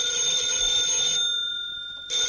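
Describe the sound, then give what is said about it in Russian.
Telephone ringing with an incoming call: a bright, steady electronic ring sounds, stops for about a second, then starts again. “Мы еще не выполнили те заявки, а уже видно, к нам звонят с новыми.”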